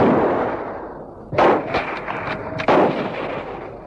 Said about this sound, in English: Now you're shooting. Get that other one.